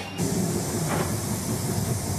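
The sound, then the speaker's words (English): A Tangara passenger train rides along with a steady, even rumble and airy hiss that stays level throughout, smooth and continuous. “The new Tangara has plenty of features to woo the votes of train travellers.”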